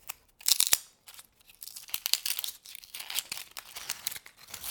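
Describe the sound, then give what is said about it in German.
Dry, papery crinkling and tearing of onion skins being peeled, with many small, irregular crackles, soft and close throughout. “Anschließend schäle ich die Zwiebeln.”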